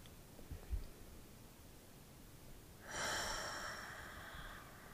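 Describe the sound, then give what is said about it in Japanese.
A single long, airy breath out during a guided deep-breathing exercise, soft and faint, swelling after a quiet stretch and fading over about a second and a half. “できるだけ大きく吸って全部吐き出してもう一回吸って”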